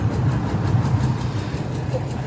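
A vehicle engine that has just been got running but is not yet roadworthy idles with a low, steady rumble and no distinct events throughout.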